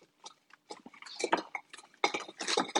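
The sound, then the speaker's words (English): Edge of a crock scraping against a cake pan while food is scraped out, a quick irregular series of scrapes and clinks in short bursts, louder toward the end, with no voices. “Now, I'm just going to kind of balance the edge of the crock”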